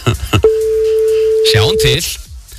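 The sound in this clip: An outgoing telephone call gives one steady, unbroken ringback tone lasting about a second and a half. Voices talk before it and overlap its end.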